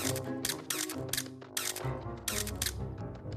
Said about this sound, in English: Why don't you take a picture with these lovely flowers? Ooh, yeah! Selfie!